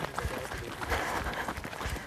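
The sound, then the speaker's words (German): Footsteps walking on a muddy outdoor path and passing beneath a bridge, heard as soft, rhythmic thuds under a constant broad rustling background. “So, und jetzt sind wir oben an der Brücke, jetzt laufen wir so ein bisschen drunter. Und wir laufen jetzt einmal nach rechts.”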